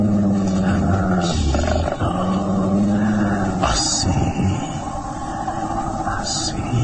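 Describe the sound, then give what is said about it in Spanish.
A mastiff dog growls in deep, rough, loud snarls and roaring rumbles, coming in a few drawn-out bursts with brief breaks between them. “El mastín deja de gruñir y retrocede impresionado por las palabras y actitud de Calimán.”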